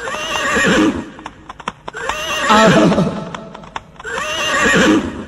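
A mare neighs loudly three times, each whinny a long shaking call, with a few sharp hoof clops falling in the gaps between the first and second calls.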